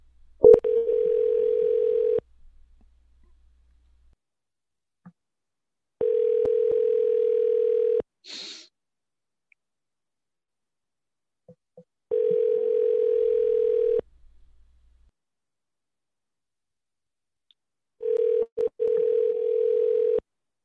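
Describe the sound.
Telephone line tone while placing a call, sounding as four steady, low-pitched buzzing tones of about two seconds each, separated by long silent gaps, with a brief click between the second and third.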